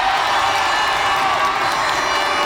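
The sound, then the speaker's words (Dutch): Crowd cheering and shouting for the Cape Verde national football team at a World Cup match, a dense, loud, continuous roar with no pauses and no individual voices standing out. “Een applaus voor ze.”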